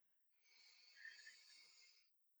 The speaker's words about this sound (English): What you do, and I'll guide you through this, is you just take a deep breath.